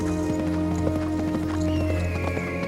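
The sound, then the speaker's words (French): A horse gallops through the countryside, its rapid, even hoofbeats steady throughout and blended with a continuous music score. “galope dans la campagne”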